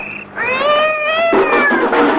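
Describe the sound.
Cat meowing: one long, loud, drawn-out meow that holds a steady, tonal pitch and then breaks into a rougher, wailing tail.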